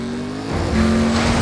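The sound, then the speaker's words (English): A car engine revs hard as the vehicle speeds around a corner on frozen docks, its roar swelling louder and then holding steady, with a sustained high tone riding above the engine noise. “As the helicopter chases after him, Dom speeds around a corner and underneath the attack submarine.”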